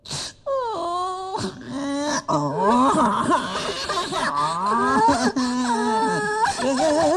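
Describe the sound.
A human voice imitating frightened wild forest animals wailing: a long run of loud, quavering, moaning cries with bending pitch, broken only by brief pauses.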